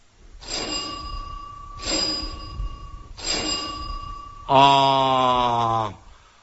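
A doorbell rings three times in separate, evenly spaced bursts of about a second each, each a bright metallic ring, followed by a louder, longer buzzing tone.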